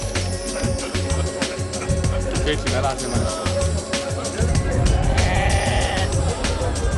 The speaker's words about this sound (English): The animal market exports about 10,000 herds of domestic animals to many regions of the world every day.